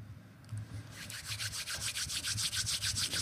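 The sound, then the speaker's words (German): Hands rub together in quick, even strokes, making a soft, rhythmic swishing that starts after a short pause and continues with many faint repeated passes. “Und dann kannst du die Hände mal über deine Oberschenkel reiben, den Bauch streicheln, die Brust ausstreichen und die Hände aneinander reiben.”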